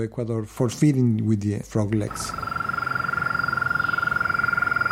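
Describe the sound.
A steady, rapid trill of frogs, several calling together, begins after a person talks for about two seconds, then continues alone as an even, high, pulsing buzz.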